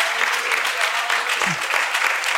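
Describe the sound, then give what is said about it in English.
A church audience claps their hands together, producing steady, dense applause that runs unbroken and fairly loud from start to finish. “would you clap your hands to the Lord right now?”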